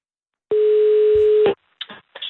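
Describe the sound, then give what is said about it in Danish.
A telephone ringing tone sounds while a call is placed: a single steady, pure, mid-pitched tone lasting about a second, stopping abruptly. A few brief, fainter crackles follow. “Er du i gang med at ringe nu?”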